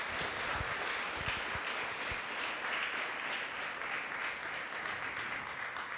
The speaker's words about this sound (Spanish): Denle un fuerte aplauso al Señor, aleluya.